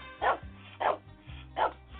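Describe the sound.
A dog barks three times at an even, unhurried pace. The barks are short, mid-pitched and loud over a low tonal background.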